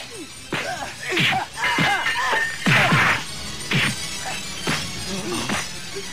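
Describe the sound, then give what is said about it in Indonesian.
Swords clash against a mindi tree branch hardened as hard as steel, a rapid, irregular flurry of many sharp striking hits and thuds at moderate loudness. “Hingga terjadilah percikan api ketika pedang-pedang itu beradu dengan ranting yang dipegang oleh lelaki aneh itu.”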